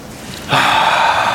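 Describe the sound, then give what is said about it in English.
A deep breath in, taken as a guided calming breath: a sudden airy, hissing inhalation that begins abruptly and continues steadily to the end, alone without talk. “Take a nice deep breath.”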